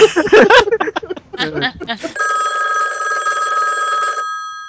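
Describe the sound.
A telephone rings before a call is answered: a steady buzzing electronic tone holds for about two seconds and then cuts off abruptly, after a stretch of lively talk.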